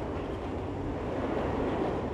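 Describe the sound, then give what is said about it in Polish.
An ordinary passenger train with compartment carriages travels along with a steady, low rushing rumble that stays even and fairly faint throughout. “Siostry do Ravensbrück wyjeżdżają też pociągiem.”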